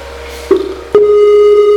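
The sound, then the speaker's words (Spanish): Call tones from a Skype test call being placed: a steady electronic tone runs throughout, with two sharp, louder tone onsets about half a second apart. There is no talk. “Skype, estamos aquí y haremos una llamadita a Mr. Echo. Ya lo tenemos en pantalla y llamamos.”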